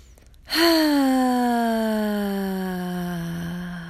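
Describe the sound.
A long, voiced exhale released as the fifth deep breath of a breathing exercise. It starts suddenly and strongly, then slowly sinks in pitch and fades gently over about three seconds.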